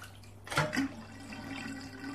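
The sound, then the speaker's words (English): Bath water drains after the plug is pulled: a brief splashy slosh, then a steady, low gurgling rush of water running out that continues to the end. “pulls out the drain plug and walks away. Nathan tries to dunk his head underwater before it drains out.”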